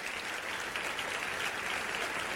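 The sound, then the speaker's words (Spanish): An audience applauding the King during a church service: steady, dense clapping, fairly faint and even throughout, with no voices standing out. “Denle un aplauso al Rey, por favor.”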